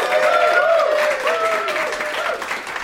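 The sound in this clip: A live comedy show audience applauds to welcome a guest onstage, with loud, continuous clapping that holds steady and then eases slightly toward the end.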